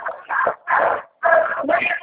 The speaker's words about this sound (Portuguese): Cachorro.